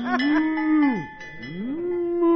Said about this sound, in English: Get that cow out of my living room.